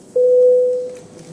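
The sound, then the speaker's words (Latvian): A parliament voting signal sounds once, a steady mid-pitched electronic tone lasting under a second before it fades away. “Aicinu atbalstīt trešajā un galīgajā lasījumā. Lūdzu zvanu.”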